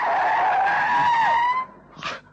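Tyre squeal from a car skidding as it rushes past a grain field: a loud, high screech holds for about one and a half seconds, then breaks off, followed by a short burst of noise.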